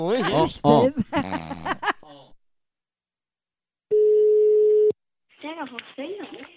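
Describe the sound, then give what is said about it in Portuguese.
A single steady electronic ring-back tone from an outgoing telephone call sounds for about a second, alone in a gap between stretches of people talking. “Eu vou ligar pra Valdete.”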